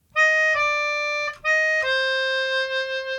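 A melodica plays the four-note Dies Irae motif (flat third, second, flat third, root) as four clear, reedy notes. The final note is the lowest and is held longest.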